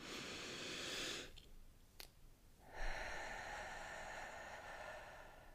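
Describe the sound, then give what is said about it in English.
A slow, deep breath comes as two soft, long breathy rushes of air separated by a short pause, quiet and unhurried, with no speech. “let's start off, of course, with a nice, slow, deep conscious breath.”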